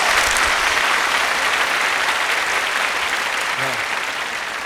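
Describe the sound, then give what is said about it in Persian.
An audience at a festive celebration claps in loud, dense, continuous applause that stays steady throughout and fades slightly toward the end. A voice is heard briefly underneath. “درست کف بزن امشب ماشاءالله”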